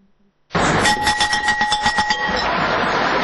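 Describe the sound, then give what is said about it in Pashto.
Loud school bell rung to mark the start of a new school year: a harsh, rapidly pulsing metallic clatter with a steady ringing tone that starts abruptly and continues for about three seconds. “ولسمشر محمد اشرف غنی هیله وښوده چې د ښوونځي دغه زنګ به د هوساینې، ثبات او خوځښت زنګ وي”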